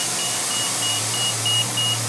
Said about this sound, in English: And the city's biggest bus station, the one with the most routes and riders, that's downtown at Republic Square on Guadalupe.